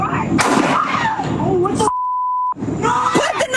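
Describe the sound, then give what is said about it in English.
Gunshots in police video footage of officers confronting a woman armed with a knife. Sharp, loud bang-like bursts cut through shouting voices, and a steady censor beep tone interrupts the commotion partway through. “she was shot a second time when she reached for that knife again”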